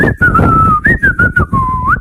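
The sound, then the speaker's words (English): A woman whistles along to old songs in a loud, clear, tuneful line. The notes are phrased in short bursts with brief gaps, and the pitch glides and bends between them. “whistling along with the tunes like, oh, this will definitely get you in the mood.”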